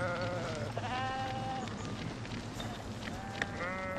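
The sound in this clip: Many sheep in a flock bleat over a steady noisy background, their wavering calls overlapping and following one another throughout.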